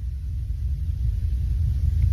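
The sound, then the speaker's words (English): A truck rolls by as a steady, deep rumble with a hissy wash on top, holding fairly even and swelling slightly toward the end. “Though I did just hear some kind of truck roll by.”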